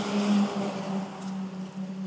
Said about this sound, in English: And just past the school bus just now passing here.